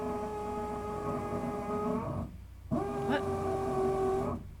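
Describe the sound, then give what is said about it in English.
Whirring motor whine of a power screwdriver driving something in a neighbouring space, a steady buzzing tone in two long runs separated by a brief pause, the second run briefly climbing in pitch. “Somebody's screwing something and... This is not even in my house. So I have no control over this noise whatsoever.”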